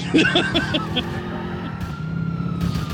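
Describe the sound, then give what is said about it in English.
Siren of a SWAT van in GTA IV wailing over a driving engine rumble, a steady tonal wail carrying through with short bursts of higher noise breaking in. “Hey, I'm taking the SWAT van.”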